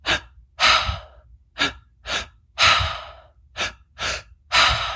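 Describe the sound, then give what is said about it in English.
Rhythmic breathwork breathing, in through the mouth into belly and chest and out through the mouth, forms eight loud, airy breaths that alternate short and longer strokes in a steady cycle, alone with no talk. “The pattern is like you breathe, you're breathing in through your mouth and you breathe in belly, chest, exhale through mouth.”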